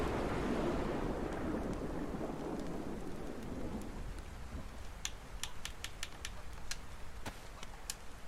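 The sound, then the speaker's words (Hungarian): Rain falls in a video game, a dense hissing downpour that is strongest at first and then thins out. Scattered sharp drips and taps follow in the quieter second half. “És meg is száradtunk. Nagyon jó, megszáradt a karakter. Úgyhogy most már az lenne a jó, hogyha szépen elállna az eső”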